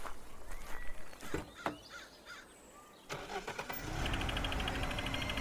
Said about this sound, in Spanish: can you go turn her car on? The key's in the ignition.